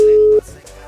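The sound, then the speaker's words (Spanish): A telephone ringing tone heard while waiting for a call to be answered: one steady, mid-pitched beep lasting under half a second, abruptly cut off, followed by low talking. “Vamos a ver si nos contesta ahora, Angeli. Vamos a ver.”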